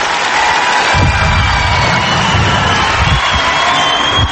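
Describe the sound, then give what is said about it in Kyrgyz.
Loud, sustained audience applause and cheering after a semifinal dance performance based on an animated film: continuous clapping mixed with shouts and whoops from the crowd, staying at full volume throughout. “Жарым финалда Атай Уолли деген анимациялык фильм боюнча коюлган бийин аткарып, залдагылардын, калыстар тобунун, телекөрүүчүлөрдүн алкышына татыды. Кол чабуулар көпкө чейин тынбай жатты.”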